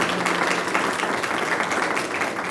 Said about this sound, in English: Please give a hand to our guest, Comptroller Hegar.